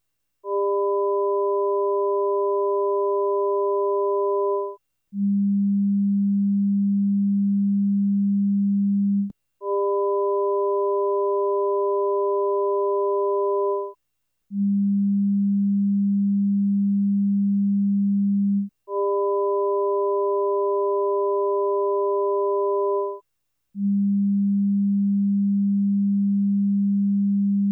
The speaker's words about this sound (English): Neither is it a mixture or average of the three. Rather, what we hear is the pitch of a 200 Hz tone.